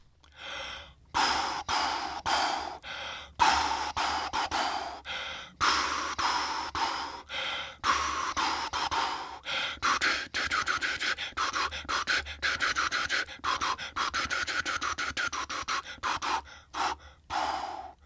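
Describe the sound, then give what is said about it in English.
Rhythmic breaths are blown forcefully in a tune's rhythm as a breath-pattern exercise for brass players. Many short, hissing bursts of air start and stop in quick succession, steady and fairly loud, with no talk. “Now, if insufficient air is a problem, we can also play what we call breath patterns to loosen up the sound.”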